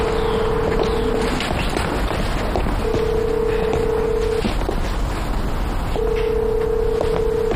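A telephone call fails to go through: a long, steady, mid-pitched tone sounds three times with pauses between, over a constant low rumbling background.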